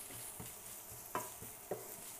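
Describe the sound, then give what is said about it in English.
Vegetables stir-fry in a pan for vegetarian tacos, a faint, steady sizzle broken by a few sharp scrapes and stirs at irregular intervals. “we're gonna just stir fry that until it gets nice and soft and fragrant and just so good”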